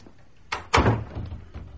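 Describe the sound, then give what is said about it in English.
A door being shut: a lighter knock followed at once by a heavier thud, with a low rumble that fades away. No voices. “No, come in. Shut the door.”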